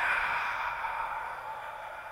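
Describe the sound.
A long, steady exhale breathed out as if fogging a mirror while folding forward in a stretching exercise, a soft airy hiss that fades slightly over about two seconds, with no talking.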